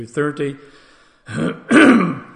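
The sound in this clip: A person clearing their throat: brief voiced hums, a short pause, then two rough, raspy bursts. The second burst is louder and longer.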